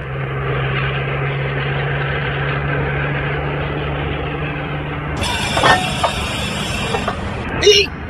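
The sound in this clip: A car engine idles with a steady low hum, then the car breaks down with a broken axle: the hum cuts out partway through and a few sharp knocks and clatters follow.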